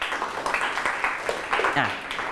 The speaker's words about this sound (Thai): โอเคปรบมือให้เพื่อนหน่อยครับ